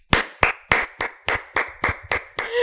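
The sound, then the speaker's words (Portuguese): Hand clapping: nine slow, evenly spaced, sharp claps, loud and alone, with a slight rustle at the very end. “Bate mais, bate mais palma que acho que bateu pouco.”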